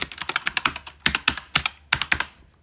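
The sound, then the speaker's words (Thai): Fingers type on a computer keyboard while a film script is being written, producing many rapid, sharp, irregular clicks with a couple of brief pauses, loud and free of talk. “เอาละ เดี๋ยวเราจะมาเขียนบทหนังที่ชื่อว่าโอลิมปัส”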